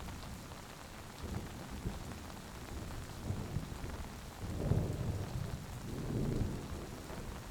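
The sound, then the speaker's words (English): Rumbling thunder rolls over steady rain in a forest. The hiss of rainfall stays faint and constant while two low swells of thunder build in the second half. “White noise is joined by the occasional rumble of thunder as lightning shows the vast size of the forest.”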